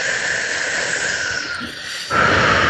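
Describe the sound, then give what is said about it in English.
A deep breath drawn during a tapping exercise, heard as a loud, steady, airy hiss that runs through the whole moment and grows stronger near the end. “Good. Take a deep breath.”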